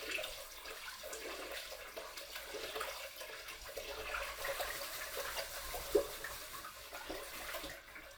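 Water rinsing rice, a steady, quiet wash of running and sloshing water throughout, with one brief louder splash near the end.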